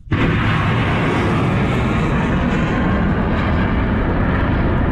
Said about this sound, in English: The sounds of missiles being fired on the port city of Mocha, where the Iranian-backed Houthis have just taken control.